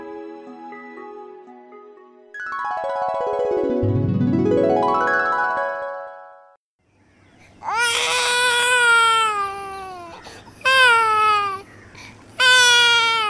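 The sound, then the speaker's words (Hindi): A baby girl crying in three loud, wavering wails separated by brief pauses, coming after a gliding electronic tone that sweeps up and down. “लेकिन तेरी बच्ची इतना रो क्यों रही है?”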